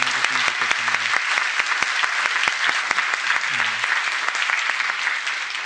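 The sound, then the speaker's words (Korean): A church audience applauds the choir with dense, steady clapping that holds at an even level throughout. “우리 한번 다 격려의 박수를 한번”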